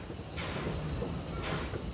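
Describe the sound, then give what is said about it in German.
A train arriving at Neuffen terminal station on the Tälesbahn line: a low, steady rumble with two bursts of hiss, all fairly quiet. “Einfahrt in der Endstation Neufen.”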